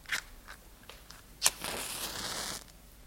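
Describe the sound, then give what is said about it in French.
A pipe is being lit: a few soft scrapes, then one sharp strike and a steady hissing flare lasting about a second, faint and with no talk. “Permettez-moi d'allumer ma pipe.”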